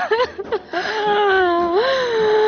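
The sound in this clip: A girl crying in a radio drama: a drawn-out, tearful wail with a clear voiced tone that breaks into short sobs at first, then holds longer, wavering notes that dip and rise in pitch.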